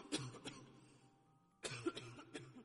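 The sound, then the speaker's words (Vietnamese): Faint coughing comes in two short bursts separated by a brief pause, each burst made of a few rough, throaty hacks. “Cô chưa kịp tiến lại gần chồng mình, thì phía sau lưng đã có tiếng ho vọng lại.”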